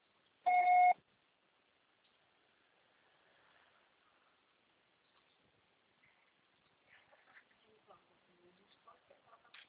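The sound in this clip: A single loud answering machine beep rings out as a short, steady, high tone lasting under half a second, then gives way to near silence with only faint, scattered low sounds.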